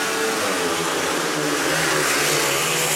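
Speedway motorcycles roar off at the start of a heat in a dense, loud, steady engine drone with a rough, buzzing texture that holds throughout. No talk is heard.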